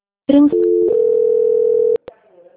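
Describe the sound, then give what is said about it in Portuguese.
Telephone line tones as a call is transferred to a quality-control line: a few short electronic tones give way to a long steady tone, then a brief click and faint line noise, with no talking. “só nesse instante eu vou estar passando a ligação para o controle de qualidade”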